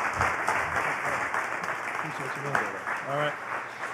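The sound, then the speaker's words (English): Church audience applauds as their pastor comes up to preach. Steady clapping runs throughout, with voices shouting and cheering over it in the second half. “would you put your hands together and welcome Pastor Carter as he comes and brings the word today.”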